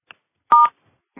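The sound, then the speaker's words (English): A short touch-tone burst from a telephone keypad, pressing star six to unmute on a conference call line. It is crisp and steady, standing alone between near silence, with faint clicks before and after. “All callers are muted and may unmute themselves by pressing *6.”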